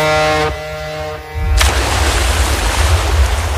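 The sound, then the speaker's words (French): People jumping into the sea make a sudden splash that breaks a steady humming drone, then a loud rush of churning water continues without a break. “Tu me dis, hein, je te suis dans l'eau, d'accord? D'accord. Allez, alors, on y va. À trois, on saute. Allez. 1, 2, 3.”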